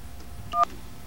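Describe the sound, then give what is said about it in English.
Telephone keypad tones from a Sprint PCS phone dialing 411, heard as a brief, bright burst of paired dial tones over a quiet hiss. “Well, I don't think we can even call 411. Let's give it a shot.”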